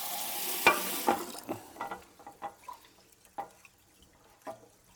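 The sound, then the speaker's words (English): Rice being washed in water by hand, with many soft sloshing stirs, grainy rattles and light drips in uneven bursts that fade gradually. “Just washing the rice. Don't ask me why, but my mom says you need to do it.”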